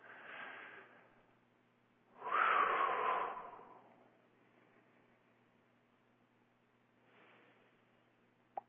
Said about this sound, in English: Join me in taking a few deep breaths.